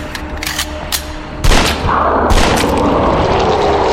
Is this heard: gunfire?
yes